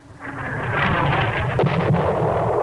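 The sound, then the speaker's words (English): Missile-landing sound effect taken from a sound effects CD and edited into a quiet song: a deep, roaring explosion rumble swells up within the first half-second and holds loud and heavy to the end. “edited in, from a sound effects CD, the sound of a missile landing, right in the middle of the quiet song.”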